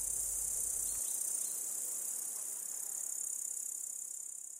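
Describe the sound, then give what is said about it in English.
Insect stridulation as a late-summer mating call, made by rubbing rows of pegs on the back legs against the forewings: a continuous, high-pitched, even trill, steady and unbroken throughout. “Stridulation, the act of rubbing a row of pegs on their back legs against their forewings, acts as a mating call and is the sound of late summer.”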